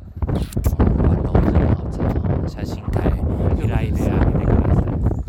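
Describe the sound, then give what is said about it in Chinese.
Strong wind before an approaching typhoon buffets the microphone with a continuous, rumbling roar, and voices are mixed in with the gusts. “好了，风越来越大了，看来台风要来呢。”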